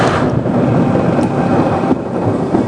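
Rain hisses steadily and densely with rumbling thunder beneath it, loud and continuous throughout.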